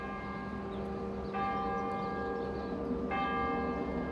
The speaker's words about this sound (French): Dans la grande cathédrale Saint-Patrick fermée, on sonne les coups de midi.